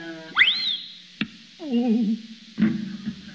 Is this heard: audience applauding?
no